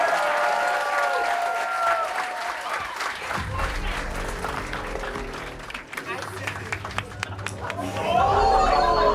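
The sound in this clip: Audience applause and cheering welcome a comedian onto the stage at a crowd-work comedy show. Dense, sustained clapping mixes with crowd chatter and whoops. It dips slightly midway and swells loudly again at the end.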